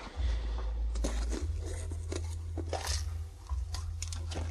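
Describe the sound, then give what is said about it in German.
Crisp, irregular crunches come from a knife cutting through a fresh bell pepper as it is cleaned, with a steady low hum running underneath. “Paprika schneide ich eben und wasche die.”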